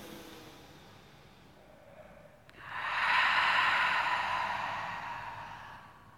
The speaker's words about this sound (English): This time, open your mouth and breathe out. One more like that. Inhale.